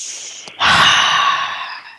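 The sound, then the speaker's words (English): One deep breath, loud and close: a brief catch, then a long, airy rush of breathing that fades gradually toward the end. “So take a deep breath.”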